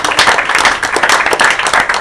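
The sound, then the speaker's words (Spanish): Applause from an audience at a live folk-music and improvised-verse event, honouring young researchers: a dense, steady patter of many hands clapping without a break, fairly loud from start to finish. “Así que un aplauso a los chiquillos investigadores.”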